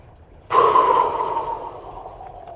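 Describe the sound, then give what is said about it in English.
Forceful whole-body exhale during a breathing exercise: one sudden, loud rush of breath that starts sharply, then trails off over about two seconds into quiet. “I think there's probably a 2 second interval right there between the exhale and the inhale.”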